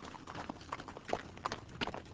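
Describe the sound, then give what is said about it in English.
A ridden horse's hooves clip-clop at a walk as it is nudged forward, many irregular knocking steps at a moderate pace, with no voices over them. “he settles there comfortably and nudges his horse forward”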